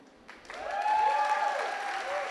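A church audience at City Church Oaxaca applauds to welcome online viewers. The clapping builds after a quiet start and holds steady to the end.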